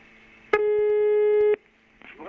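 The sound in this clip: A telephone line tone sounds while a call is placed to a newspaper's news desk: one steady, clear electronic beep lasting about a second, then near quiet with faint low noises.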